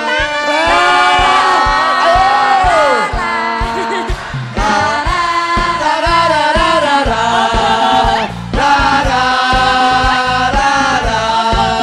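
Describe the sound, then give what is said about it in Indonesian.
Audience cheering during a standing ovation for a singer on a dangdut competition show: loud, sustained shouts and whoops from many voices blend into a continuous roar with only a brief dip midway. “Memberikan standing ovation untuk Rara. Rara lagi-lagi mendapatkan standing ovation dari semua Dewan Dangdut sama seperti semalam.”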